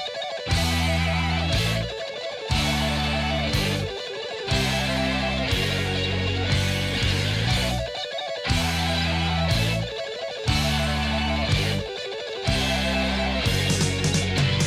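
Fast neoclassical electric guitar playing from a rock album: dense, loud rapid-fire phrases with a heavy low end, arriving in repeated blocks about two seconds long, each separated by a brief gap.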